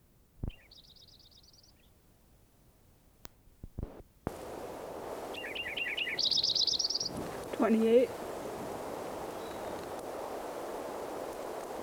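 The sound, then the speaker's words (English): A Lincoln's sparrow sings two short, high, buzzy trilled phrases separated by quiet, with faint lower chirps and a steady hiss of background noise in between. “Lincoln Sparrow number 5 again. Trying to get some more recordings of him.”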